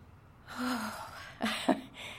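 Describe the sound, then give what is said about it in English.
A person takes a deep breath, drawing in a long, soft, airy inhale, followed by a few short breathy sounds. “As I take a deep breath”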